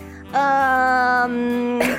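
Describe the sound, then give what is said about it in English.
A cough from something stuck in the throat: a strained, sustained voiced throat sound, then a short, harsh burst near the end. “Are you choking? Yeah, I got a little something in my throat.”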